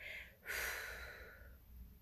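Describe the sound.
Soft breathing during a voice-training breath exercise: a short faint breath, a pause, then a longer airy exhalation that tapers away.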